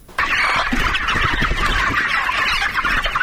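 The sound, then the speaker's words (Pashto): Dense, continuous clucking and chattering of many chickens on a poultry farm in the Bidak area of Tarinkot, Uruzgan province, forming a steady, layered din without pauses. “دا د ترینکوټ ښار اړوند د بیداک په سیمه کې د نعمت الله حکیار د چرګانو فارم دی”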